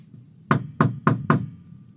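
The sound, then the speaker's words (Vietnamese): Four sharp knocks on a door from outside, loud, evenly spaced and quick, with brief quiet before and after. “từ ngoài gõ cửa.”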